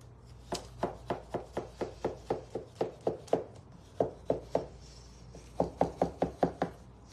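Flower stems being cut during a florist's arranging class: many crisp, sharp chopping strokes in a steady, quick rhythm, broken by a couple of brief pauses before the cutting resumes.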